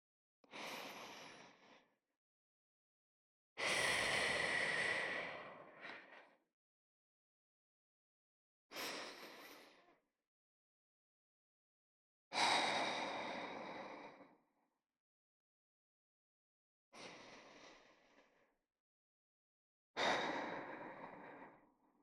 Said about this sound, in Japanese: もう一回深呼吸しておく？いいよ。それじゃあ、私に合わせてね。